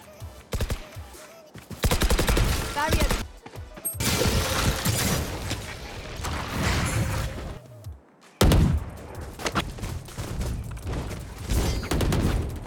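Rapid gunfire rattles through a first-person shooter video game during target practice: dense, loud bursts of shots come in several runs, with brief gaps between them and one abrupt pause near the end.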